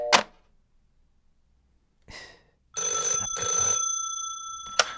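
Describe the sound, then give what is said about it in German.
A telephone bell rings in a single bright, steady burst of about two seconds with a brief dip midway. A short knock and a rustle come before it, and no one speaks. “Was war das für ein Anruf eben?”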